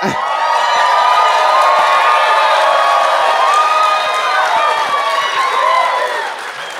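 A live theater audience at the Aladdin Theater in Portland cheers and applauds, loud clapping topped by shrill whoops and shouts that stay intense for several seconds before easing off near the end.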